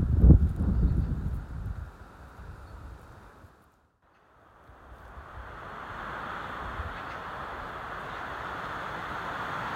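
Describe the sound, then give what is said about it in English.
Wind whips through trees on moorland near Ilkley. A loud, rumbling rush gradually drops away to near silence midway, then builds back into a steady, broad, airy hiss. “You may now be able to hear the wind whipping through trees.”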